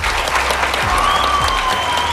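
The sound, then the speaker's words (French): An audience at a school claps for four students, giving a dense, steady burst of applause that stays even in loudness for about two seconds. “Aujourd'hui, on les applaudit.”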